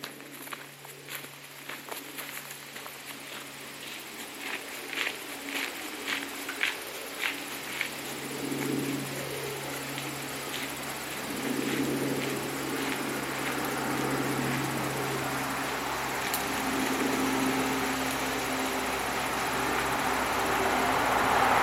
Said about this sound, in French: il y a un camion qui est passé également sur le chemin de terre.